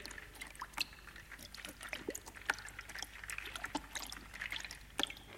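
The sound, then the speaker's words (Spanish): Bath water with bubbles: faint trickling and dripping with many small bubbly pops and light splashes at an irregular rhythm. “El sonido del baterista estaba tomando un baño con burbujas y todo.”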